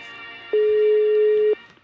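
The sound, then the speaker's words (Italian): Telephone ringing on a phone line, heard as a single steady mid-pitched tone lasting about one second that starts and stops abruptly against a quiet background. “Squilla il telefono di Daniela Santanchè.”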